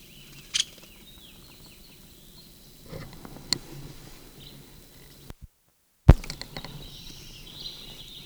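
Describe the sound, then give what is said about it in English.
Two brief, sharp, high call notes of a Nuttall's woodpecker, widely spaced, over a quiet background with a few faint soft taps. “Nuttall woodpecker.”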